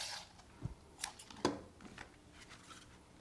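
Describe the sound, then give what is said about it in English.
Scissors cut through polyester ribbon in a few quick, crisp snips spaced close together, faint and alone with no talk. “We're gonna cut off a couple yards of a few different types of ribbon.”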